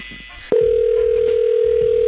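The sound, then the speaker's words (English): A telephone dial tone after a hang-up cuts in abruptly after a short quiet stretch. It then holds one steady, unchanging pitch at a constant loud level to the end, over faint background noise. “That last hang-up just cost you another 15.”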